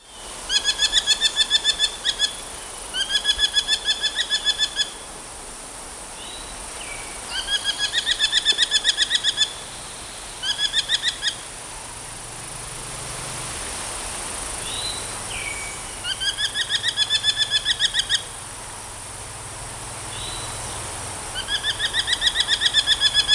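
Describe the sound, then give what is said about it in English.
Common raven calls: several separate bursts of rapid, repeated harsh notes with short gaps between them, heard alone with no voices. “Common Raven.”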